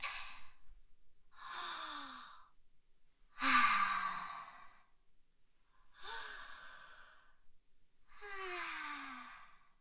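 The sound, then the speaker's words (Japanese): A person taking slow, deep breaths, heard as five faint, drawn-out breathy inhales and exhales with pauses between, some trailing off in a soft, falling voiced sigh. “ちょっと深呼吸する。”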